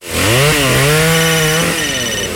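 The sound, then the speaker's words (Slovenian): A chainsaw cuts wood with a loud, continuous buzzing engine whine that dips slightly in pitch now and then. It runs alone, with no voices. “Tunč ga tak seka z motorko, da še kralja Matjaža zbudo.”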